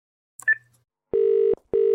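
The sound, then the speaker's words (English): A phone redials: a short, high electronic beep, then two long, steady line tones of equal pitch separated by a brief gap, clean and fairly loud. “Hit redial on Brooks's phone before you go.”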